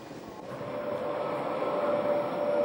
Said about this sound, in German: Der Panoramazug führt uns nun zur nächsten Attraktion an der Strecke.